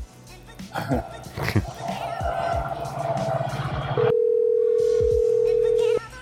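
A telephone signals an incoming call with a single steady electronic tone, held for about two seconds after a stretch of busy, noisy background, then stopping abruptly.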